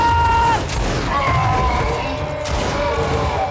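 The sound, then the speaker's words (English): A volley of gunfire from a rank of soldiers: a loud, dense, crackling burst that fills the whole stretch, with shouting voices over it. “Front rank, prepare to fire! Queen and country, lads!”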